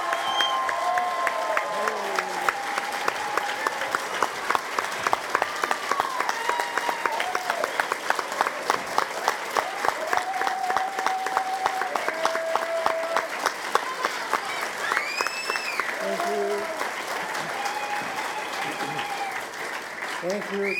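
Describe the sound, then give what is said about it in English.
Enthusiastic audience applause and cheering welcome a guest speaker at a roller coaster fan gathering. Dense, continuous clapping lasts about twenty seconds, with whoops and voices rising over it. “So please give me your best Coaster Mania welcome for Ron Toomer.”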